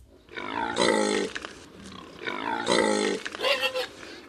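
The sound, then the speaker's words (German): A wild boar grunts and roars in two long, harsh, throaty calls of similar shape, separated by a brief pause. A shorter choppy burst of grunting follows. “Es geht um Wildschweine.”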